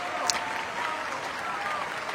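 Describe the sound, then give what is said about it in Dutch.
Applause from a concert audience in a basilica after a cello concerto at a festival: a dense, steady wash of clapping that stays even and unbroken throughout. “En dit bravo geroep en applaus, het ging nog minutenlang door in de Plegelmusbasiliek in Oldenzaal, op het Stift Festival”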